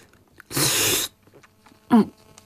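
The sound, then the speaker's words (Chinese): Noodles gulped down with chopsticks at a noodle shop: one long, loud, noisy slurp, then a short, throaty mouth sound. “这时候店家送了面过来，叶枫搅动着筷子大口地吞咽着，一边吃一边含糊不清地说着”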